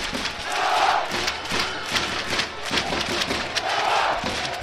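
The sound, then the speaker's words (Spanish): Roar of Navalcarnero football supporters celebrating their club's promotion, a sustained crowd din with rhythmic surges of cheering and shouting throughout. “A ver cómo suena el micrófono ambiente solamente el público de Navalcarnero.”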